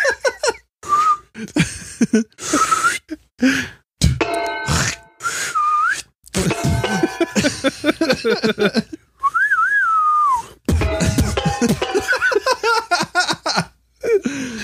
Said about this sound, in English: You whistle?